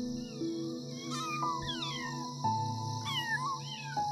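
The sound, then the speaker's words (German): About twenty kittens meow while romping wildly together in a clearing. Several high, wavering mews overlap and slide up and down above a steady tonal drone. “Ist das ein Trubel? An die 20 Katzenkinder tollen hier wild miteinander herum.”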